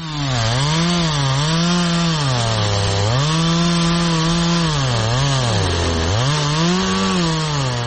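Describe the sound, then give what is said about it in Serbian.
A chainsaw cuts through old wooden railway sleepers. The loud, continuous buzzing engine whine sags and recovers in pitch several times as the blade bites and frees. “Proizvodila ga je motorna testera u rukama čovjeka koji je pilao stare željezničke pragove.”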